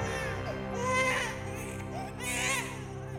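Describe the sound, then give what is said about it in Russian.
A baby's crying used as an acoustic sound weapon rises in two wailing swells over a steady humming drone, faint overall. “Только акустика, только результат. И младенец закричал.”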